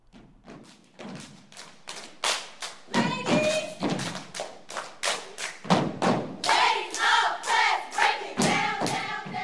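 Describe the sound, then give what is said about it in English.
Stepping and clapping by a middle school step team during a performance: many sharp stomps and hand claps in a steady, driving rhythm. The hits are crisp and loud, with no pauses. “That's the sound of the Roland Park Middle School step team performing early this year.”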